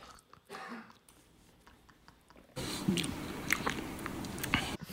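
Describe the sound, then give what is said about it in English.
Someone chews food loudly with wet, crunchy bites. The chewing is faint and sporadic at first, then turns abruptly into dense, loud crunching and smacking. “usually I don't hear you eating. You're fucking going at that thing.”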